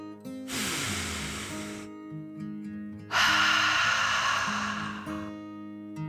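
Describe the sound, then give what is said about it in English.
A deep breath in and out is heard as two long, airy rushes of breath over soft, steady music, with the second breath louder than the first. “So he took another deep dragon breath, in and out.”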